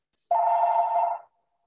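A telephone rings once: a single steady electronic trill lasting about a second, heard alone with nothing else around it.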